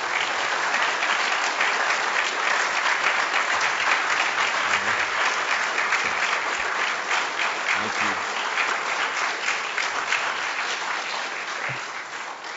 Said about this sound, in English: let's put our hands together and welcome tonight's speaker, Kelly Shackelford.